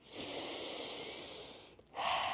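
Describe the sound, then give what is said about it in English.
A deep breath is drawn in as a long, soft airy rush lasting over a second. After a brief pause, a second, breathier burst follows. “I just want you to take, like, the biggest deep breath.”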